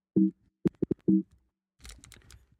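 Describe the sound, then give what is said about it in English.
Computer keyboard typing on a keyboard that is malfunctioning after tea was spilled on it. A brief burst of fast, light clicks and taps follows a few short blips. “I don't know if you heard any of that or not, but that's my keyboard. My keyboard's doing weird things.”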